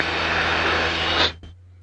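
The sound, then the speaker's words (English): Engine of a 160-horsepower Piper Warrior light aircraft climbing out in hot weather: a loud, even droning roar over a low steady hum that cuts off abruptly near the end, leaving only a faint low tone. “During climbout, which in that heat and a little 160 horsepower Warrior took a while”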